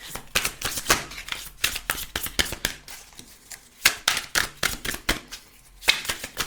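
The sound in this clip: Oracle cards are shuffled by hand, with many quick, crisp riffling and slapping bursts in an irregular rhythm, each flurry separated by brief pauses.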